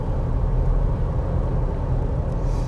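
A car driving on the road, heard from inside while the driver holds the steering wheel. A steady, loud, low rumble of engine and tyre noise continues without a break, and no one speaks.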